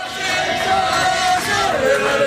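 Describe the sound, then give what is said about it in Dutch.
A crowd cheers Tour de France cyclists as they arrive by bus at Grenoble train station. Long, loud shouts and whoops from many voices merge into a sustained roar that holds steady throughout. “Richting dus het treinstation, waar de renners dan met gejuich worden ontvangen.”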